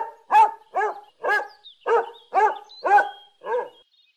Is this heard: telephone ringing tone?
no